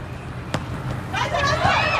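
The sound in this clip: A volleyball bounces once on the court before a serve in a Thailand versus Australia match, a short dull thud. Crowd noise and commentators' voices continue around it.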